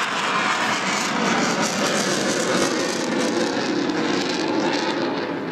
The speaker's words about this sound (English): He flew up from Tyndall today, and as you can see, he's got his wheels down. He's waggling his wings.